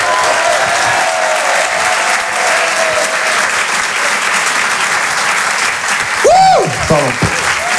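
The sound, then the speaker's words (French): Applause and cheering from an audience greeting a comedian at a stand-up comedy show: loud, steady clapping throughout, with a brief whistle near the end. “Je vous demande de l'encourager, faites un maximum de bruit, s'il vous plaît, pour Clément Kersual.”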